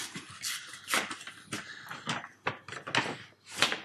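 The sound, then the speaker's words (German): Paper envelope being opened: faint, scattered bursts of crisp rustling and tearing, several short scrapes and crackles spread irregularly across a few seconds. “Ich würde diesen Umschlag jetzt öffnen.”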